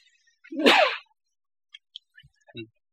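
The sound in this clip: A single short, sharp sneeze bursts out loudly, then a few faint small clicks and rustles follow in near silence.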